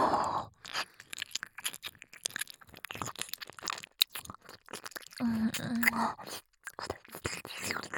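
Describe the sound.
Wet mouth sounds of nibbling on an ear, made up of many quick, close clicks, smacks and soft crunchy bites in an irregular rhythm, with faint whispering at times.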